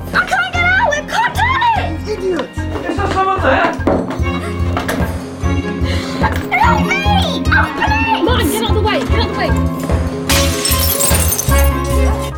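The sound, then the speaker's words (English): Window glass smashes in a bright, crashing burst near the end, after a long stretch of agitated, raised voices and thuds. “smashes a window.”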